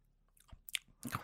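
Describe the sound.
Vocal chewing noises imitate someone eating bangers and mash: a few wet smacks, squishes and crunchy bites, faint and irregular, made by a voice.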